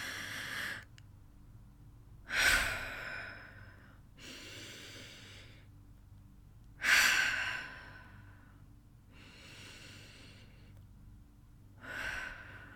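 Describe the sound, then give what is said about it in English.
Deep, slow breathing to calm down from anger: six unhurried breaths with no talk, every other one a louder, sighing exhale and the ones between softer and airier. “Remember what the therapist said. Take deep breaths and try to control your anger.”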